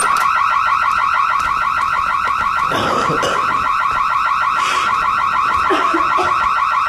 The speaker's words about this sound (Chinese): 什么声音啊？这是 报警器。